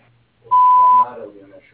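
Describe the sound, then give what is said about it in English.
A voicemail answering machine gives a single steady, high-pitched beep lasting about half a second, followed by a voice beginning to speak. “or leave me a message at the beep.”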